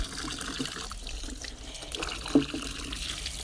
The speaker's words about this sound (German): wollen wir das vielleicht für dich auswaschen und du guckst, wie es geworden ist.